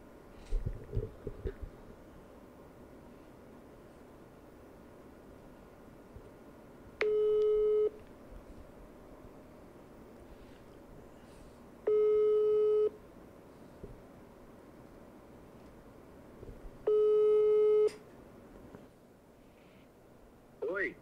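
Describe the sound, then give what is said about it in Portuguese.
Telephone ringback tone while a call is placed, heard as three steady, low-pitched beeps of about a second each, evenly spaced roughly five seconds apart. A brief stretch of voices and noise comes at the start, over a faint background hiss. “Deixa eu pegar aqui. Arthur. Vamos ligar no seu Arthurzinho.”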